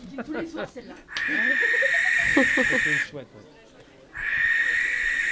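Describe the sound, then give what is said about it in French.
Hissing screeches of a local owl play as a sound-recognition quiz answer: a long harsh, breathy screech and, after a short gap, a second one, with talk at the start and over the first screech. “un dernier son bonus à vous faire reconnaître. Laquelle? La chouette locale.”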